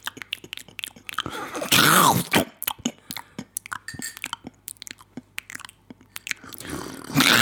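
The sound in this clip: Someone eats McDonald's Chicken McNuggets, with crunchy bites and moist chewing in irregular bursts and brief pauses, and no talk.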